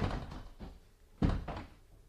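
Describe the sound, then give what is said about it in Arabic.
A door is shut with a low wooden thud in a spoken drama scene, a few soft knocks and bumps leading to one heavier thunk midway, then fading into quiet. “اقفلوا الباب علينا”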